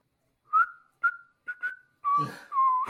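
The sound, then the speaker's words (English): A person whistles a short, halting tune of a few clear notes, the first ones brief and the last two longer and held, with some rougher noise under the final notes. “just whistling as you guys are walking”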